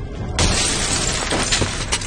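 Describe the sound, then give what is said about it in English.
A truck window's glass is shattered with the butt of a gun: a sudden loud crash followed by continuing crunchy, noisy breakup and clatter. “the man looks in the truck window. He shatters it with the butt of his gun.”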